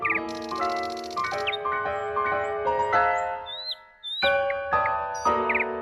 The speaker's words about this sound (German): Aber ohne der Amsel zu nahe zu treten, die Singdrossel singt schöner.